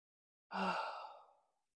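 A deep breath ends in a long, audible sighing exhale: one breathy release that starts strong and trails off softly over about a second, alone in silence.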